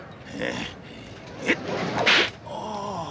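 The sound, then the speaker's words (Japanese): Whip cracks ring out as two sharp, bright snaps about half a second apart, standing out against a noisy background. “ムチの使い方がちょっと違うようだが、拝借できますかな。ちょっと拝借。簡単なんですよ。やってみせましょうか。”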